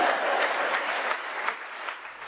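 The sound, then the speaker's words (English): A theatre audience applauds a scene with dense, even clapping that eases slightly in volume over about two seconds. “I think it's so interesting to hear the audience respond in such different ways.”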